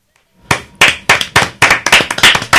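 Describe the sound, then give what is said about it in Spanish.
Audience applause after a poetry recitation: sharp, loud claps that start sparse and steadily quicken into a denser clapping rhythm, with no voices over it. “Este aplauso, este aplauso acabamos de realizar no solo para agradecerte a ti este último verso, sino también a Alberti”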